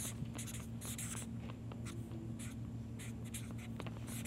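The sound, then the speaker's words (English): A pen scratches across paper as notes are written out by hand, in many quick, scratchy strokes in an uneven rhythm over a steady low hum. “So for those listening on this on the podcast, I'm just writing this.”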